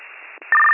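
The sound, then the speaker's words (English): A steady ringback tone sounds over a telephone line during an emergency dispatch call, starting about halfway through after a stretch of hissy, narrow-band line noise. “I have the line ringing.”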